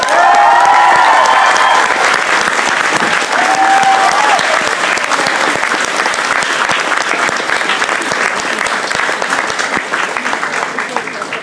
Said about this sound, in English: Ladies and gentlemen, please join me in giving a massive Birmingham round of applause to the author of a brand new book that he's just written.